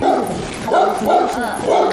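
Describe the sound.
Dog barks a few short times under people talking, in a household where the dog is fed and dabbed with butter as a New Year blessing.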